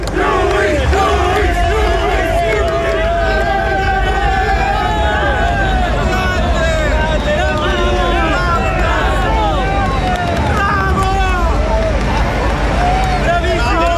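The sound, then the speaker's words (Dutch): Italian sports crowd cheering at an athletics jumping event, a loud, unbroken roar of many voices with rising and falling chants layered over the din. “Geweldig, die sound en die gasten ook, hè. Italianen kunnen dan toch lekker losgaan en dan komen bravo, doelie, doelie.”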